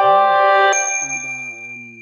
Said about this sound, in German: da habe ich jetzt gerade eine Nachricht bekommen, da muss ich kurz mal gucken